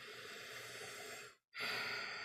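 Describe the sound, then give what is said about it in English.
Slow, conscious breathing in and out: a long, steady breath of soft airy hiss, a brief silent pause, then a slightly louder, fuller breath. “taking some conscious breaths in and out.”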